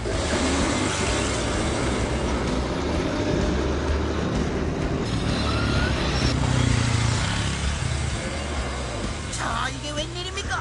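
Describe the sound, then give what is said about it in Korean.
A car's wheels spin while it sits stuck in sand, giving a loud, steady roaring and grinding noise that holds for the whole stretch without clear breaks. “차 바퀴가 모래에 빠져 헛바퀴만 돌고 있네요.”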